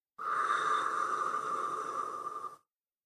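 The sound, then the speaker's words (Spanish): A single long, deep breath during a guided breathing exercise. It is smooth and even for about two and a half seconds, then stops abruptly. “Una vez más, inhalemos y exhala. Una vez más, inhala y exhala.”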